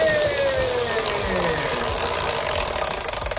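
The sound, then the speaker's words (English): A prize wheel given a big spin whirs steadily, its tone sliding slowly downward as it loses speed, with a rapid flutter of ticks building toward the end. “Do you want me to give the wheel a spin? Yeah. A big spin or a little spin? Big, please. Here we go.”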